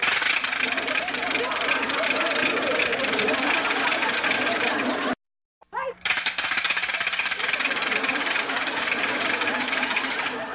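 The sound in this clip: A wooden ratchet rattle noisemaker being spun, giving a loud, continuous, dense clattering that stops briefly midway and then starts up again just as hard.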